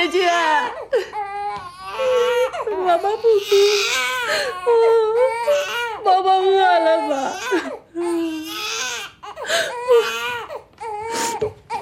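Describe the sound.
A newborn baby who has not yet been fed cries loudly and without a break, in long wavering, high wails broken by short catches of breath.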